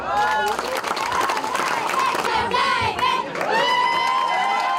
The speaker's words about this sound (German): Gugelhöhe muss bleiben, rufen Kinder bei einem Protestmarsch, an dem mehrere hundert Bürger teilnehmen.